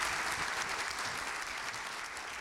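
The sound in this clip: Audience applause thanking a panel at the end of a talk: dense, steady clapping from many hands that fills the whole clip at an even level.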